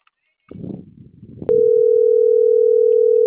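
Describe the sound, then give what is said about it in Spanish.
A telephone dial tone sounds while a call is being placed. Brief handling noise comes first, then a loud, steady single-pitched tone holds unbroken to the end. “Ahí le estoy marcando justo ahorita.”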